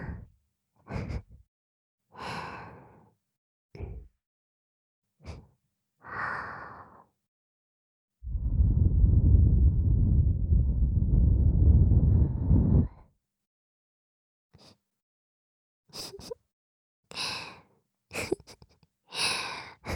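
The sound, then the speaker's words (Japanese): Soft breath blown onto a microphone: one sustained, rushing blow of about five seconds, framed by several short, breathy puffs before and after it. “びっくりした？君が寝てるか確認したくて息ふうふうしちゃった。”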